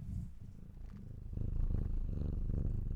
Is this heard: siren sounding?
no

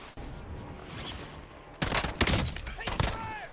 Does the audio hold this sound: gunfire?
yes

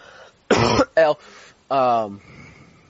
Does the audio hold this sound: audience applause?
no

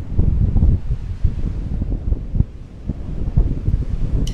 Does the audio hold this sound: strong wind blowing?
yes

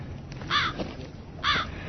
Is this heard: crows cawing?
yes

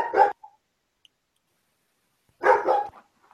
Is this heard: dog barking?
yes

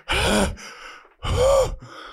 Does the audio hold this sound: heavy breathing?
yes

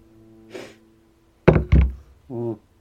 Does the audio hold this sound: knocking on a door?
yes

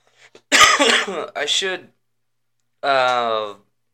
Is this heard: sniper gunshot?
no

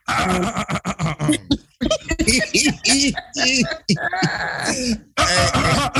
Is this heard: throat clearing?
yes

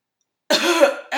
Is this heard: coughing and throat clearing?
yes

